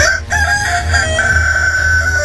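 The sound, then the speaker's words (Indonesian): A magical rooster crows loudly in one long, drawn-out call. The call holds a fairly steady pitch for over two seconds after a brief catch near the start. “aku akan menghancurkannya dengan ayam jantan saktiku ini.”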